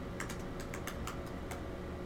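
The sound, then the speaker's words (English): Faint typing on a computer keyboard, a quick run of several light key clicks in an uneven rhythm over a low background hum. “Here, type that in there.”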